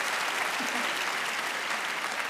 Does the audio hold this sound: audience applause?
yes